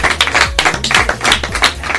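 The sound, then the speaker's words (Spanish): Scattered hand claps ring out for a guest being introduced in a Spanish interview, uneven and fairly loud, coming in quick irregular bursts rather than a dense roar. “¡Un aplauso para Mr. Ávila!”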